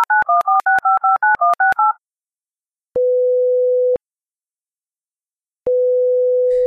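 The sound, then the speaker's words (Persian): A quick run of touch-tone dialing beeps as a phone call is placed, followed by two long, steady ringing tones separated by a silent pause. “می‌ریم که با مهداد تماس رو برقرار بکنیم”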